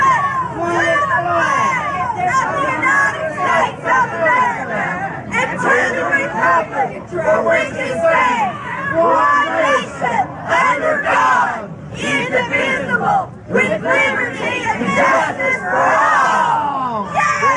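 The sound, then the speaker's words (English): A large crowd of protesters, including Trump supporters with signs, fills a blocked-off street under heavy police presence, with loud continuous shouting, chanting and a dense babble of voices throughout. “Major protests are happening right now. I'll take a break so you guys can kind of hear what people here have to say. The streets are blocked off.”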